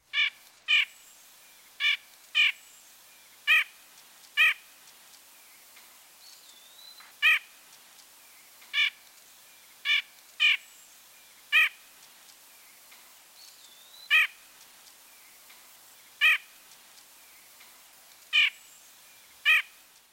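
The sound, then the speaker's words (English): Nasal, harsh 'ank' calls of a white-breasted nuthatch, a single note repeated many times at irregular intervals, each call short, bright and clearly audible against a quiet background. “The most commonly heard vocalization of the white-breasted nuthatch is a nasal call. Ank, ank, ank, ank.”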